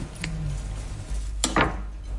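A knife cuts the crust off bread, giving a few short scraping, crunchy strokes with light clatter against a board or plate. The sounds are fairly quiet and there is no talk.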